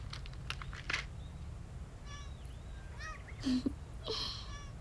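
Cats meowing while being fed: a few short, faint meows over a low steady hum.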